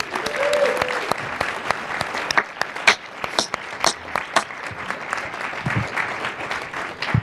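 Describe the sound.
Audience applause welcoming a speaker on stage at an event: many hands clapping in a steady, continuous wash with some sharper individual claps standing out.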